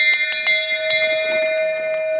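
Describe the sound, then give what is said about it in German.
A hand bell at a lakeside ferry landing, rung to summon the ferryman to an island, gives a few quick metallic clangs. Its bright, steady ringing tone sustains throughout. “Und schau, jetzt sieht man die Glocke. Da steht, wenn Sie auf die Roseninsel übersetzen möchten, bitte an der Glocke läuten.”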